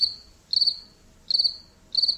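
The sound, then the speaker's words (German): Crickets chirping outdoors on a warm summer night, heard through an open window: regular, shrill, high-pitched pulsed trills repeating in a steady rhythm over a faint low background, with no voices. “das Zirpen macht irgendwas mit der Stimmung”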